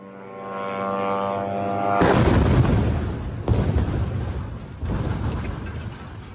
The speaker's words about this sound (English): Journalist Faiz Kureka shot this video of the moment the building exploded.